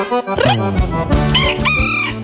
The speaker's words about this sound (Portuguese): Galo vai cantando